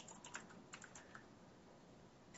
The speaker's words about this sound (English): I'm going to go type it in.